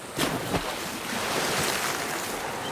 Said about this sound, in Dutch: En daar ligt dan de zee, azuurblauw, en ik ruik de zilte strandlucht.